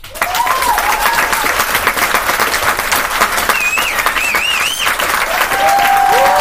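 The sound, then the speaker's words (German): Dense, steady applause from a digitally inserted sound effect, many hands clapping loudly and evenly for the whole stretch with no pause or fade. “Yay, klatsch. Warte mal, Pause machen für digitales Klatschen einfügen.”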